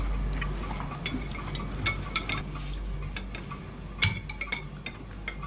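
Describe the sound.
A spoon clinks against a dish as a boy eats a meal with bread, giving a series of light, irregular metallic taps, one sharper than the rest, over a soft steady background.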